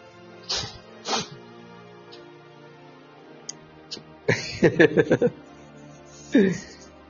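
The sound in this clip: Two quick sneezes in a row, sharp and moderately loud, followed by a quiet pause and then a few short bursts of people talking.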